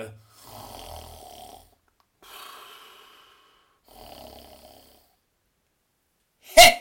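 A man snores in deep sleep, three slow, raspy snores spaced evenly apart, then a sudden loud, sharp burst at the end.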